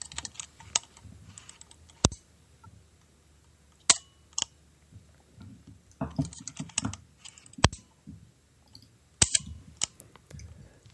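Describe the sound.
Mechanical clicks from a Voigtländer Vito CL camera shutter fired at 1/100 and then 1/15 second, several sharp snaps with quieter clattery handling clicks scattered between them.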